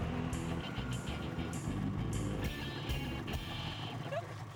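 A snowmobile engine runs after a race with a steady, low droning rumble that stays fairly constant throughout.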